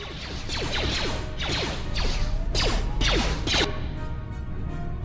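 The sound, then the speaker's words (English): An energy shield activates in a video game with mechanical whirring, ratcheting textures and several sharp whooshing, crashing bursts over a steady background, the effects cutting off toward the end. “We poisoned them. We're gonna pop an energy shield.”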